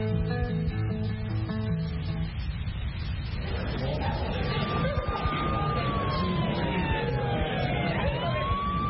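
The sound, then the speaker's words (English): Emergency vehicle siren: a sustained wailing tone that glides slowly downward and then climbs again, entering a few seconds in over a dense, steady wash of background noise. “Sounds like another emergency coming in.”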